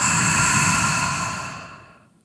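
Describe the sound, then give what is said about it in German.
A deep exhale through the mouth during a guided breathing exercise: one long, breathy rush of air that starts strong and fades away over about two seconds, with no talking. “Halt kurz an und atme durch den Mund mit so einem aus.”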